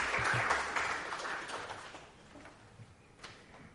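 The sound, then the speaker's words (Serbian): Audience applause at a poetry reading: a burst of dense clapping that is strongest at the start, then thins and fades steadily over a few seconds. “Sad vas molim za jedan aplauz”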